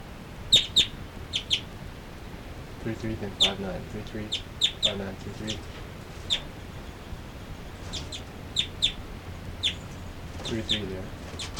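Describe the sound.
Two birds calling back and forth: many short, high chirps in quick pairs and small clusters at irregular intervals, some louder and some softer, with a person speaking quietly over them.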